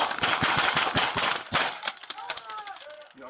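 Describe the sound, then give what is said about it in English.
Gunfire exchanged between a police officer firing a handgun and a suspect: many sharp cracks in rapid succession, then lighter scattered clicks as the burst tails off. “So he gets shot at. He immediately responds with rounds back at the”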